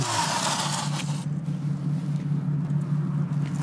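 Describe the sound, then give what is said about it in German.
A 15-horsepower e-bike fitted with an engine sound system gives a steady, low motor-like hum. A rushing noise at the start cuts off after about a second, leaving the hum alone. “Erstes Mal E-Bike mit Sound, habe ich jetzt gerade gehört.”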